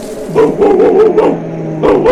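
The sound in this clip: A dog barks and yips in a quick run of high, sharp barks, pauses briefly, then barks again, loud and close with no talk over it.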